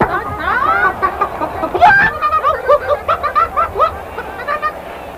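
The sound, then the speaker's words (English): Chicken clucking: a loud run of quick, repeated clucks and squawks with a choppy, pulsing rhythm. “Tune in 2 weeks from tonight when you'll hear the chicken say,”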